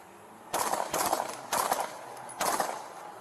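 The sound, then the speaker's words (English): Gunfire from an AK-47 rifle: four sharp cracks at uneven intervals, each trailing a short ragged tail, standing out loudly above steady background noise. “Central, we got a man with an AK-47. He's shooting at us.”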